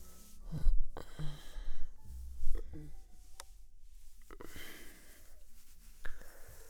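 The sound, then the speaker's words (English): Close, intimate breathing right at the microphone, a few soft breaths and exhales spaced through the moment with faint clicks between them, sounding hushed and near. “Can you feel my breath against your neck?”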